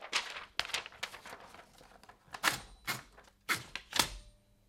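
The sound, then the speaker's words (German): An old typewriter clacks in uneven bursts of key strikes, with several louder sharp hits among quieter taps, faint overall and with no voices. “Sonate für eine ältere Schreibmaschine.”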